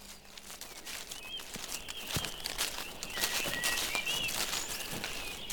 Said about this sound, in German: Ah, die gute Waldluft. War das nicht eine tolle Idee von mir mit dem Spaziergang?